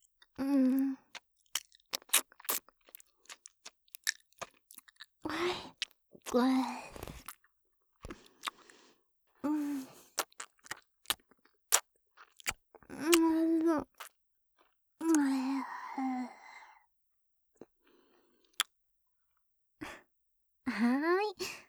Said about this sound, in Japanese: ママの愛情たっぷりのおかゆさん全部食べてくれてありがとう。